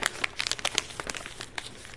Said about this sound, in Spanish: vienen con un papel dobladito, ¿verdad? Imagínense que vienen así.